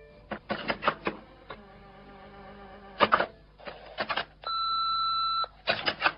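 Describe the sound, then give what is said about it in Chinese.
Telephone answering machine beeping: a steady, sustained electronic tone lasting about a second comes near the end, preceded by several short rattling bursts and brief tones. “我一回到家按着个电话录音机”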